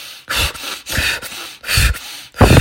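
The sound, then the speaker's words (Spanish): Rapid, forceful breathing from a fire-breath exercise: four quick, loud bursts of breathy air in an even rhythm, with no talking. “Yo recomiendo ejercicios, eh, en inglés se llaman fire breaths. Entonces, entonces respiras rápido, le haces”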